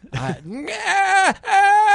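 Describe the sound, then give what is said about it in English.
A man's voice imitates a dying goat's yell after a hard fall while bowhunting outdoors, with three strained, groaning wails whose pitch wavers and bends, the middle one long and bleating. “I yelled out like a dying goat”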